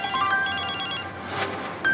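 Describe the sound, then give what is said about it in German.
An electronic telephone ringtone signals an incoming call, playing bright repeating melodic beeps in a steady pattern over constant background noise. Midway, a brief noisy burst interrupts the tones before the beeps resume. “Aber jetzt kommt da dieser Anruf von Wolfgang Niersbach”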